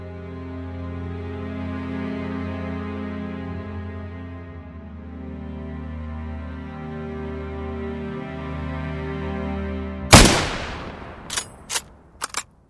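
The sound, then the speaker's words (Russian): Rifle shots from a Mosin three-line rifle at a shooting range set up on a football field, where actors sat marksmanship tests. A long low sustained hum gives way to a few sharp, loud cracks near the end. “Актеры театра имени Ленинского «Комсомола» сдавали нормативы по стрельбе из трехлинейной винтовки Мосина на значок «Ворошиловский стрелок» третьей степени.”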